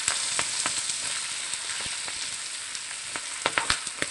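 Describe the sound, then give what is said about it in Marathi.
Okra frying in a non-stick pan over a low to medium flame gives a steady, bright sizzle with scattered crackles and pops, a few of them louder toward the end. No one speaks. “हलकस परतून घेऊन भेंडी टाकायची आहे। भेंडी व्यवस्थित परतून घेऊया।”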